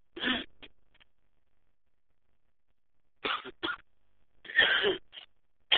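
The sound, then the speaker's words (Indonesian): Coughing, with several short, harsh coughs in two clusters separated by a long silence: a few at the start, then more toward the end, heard alone with no talk. “Istirahat ini mulai gatal-gatal. Nah, batuk.”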